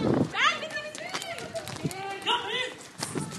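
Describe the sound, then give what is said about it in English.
Protesters run from police in riot gear: hurried footsteps are heard through loud overlapping shouting and talking, the noise staying dense and agitated throughout. “Okay, there's police in riot gear. We're all running.”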